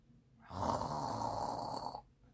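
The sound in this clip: Snoring from a sleeping grandmother on a cozy bed: one long, drawn-out rasping snore that holds steady and loud for about a second and a half, then stops. No one talks.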